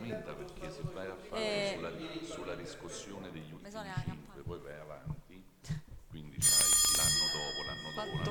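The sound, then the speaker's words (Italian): A small bell rings once during a council meeting vote, giving a bright, sharp strike whose high, ringing tone decays slowly, heard amid ongoing talk from several people. “c'è sta campanella.”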